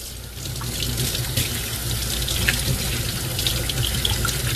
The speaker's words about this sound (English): I'm gonna wash my hands real quick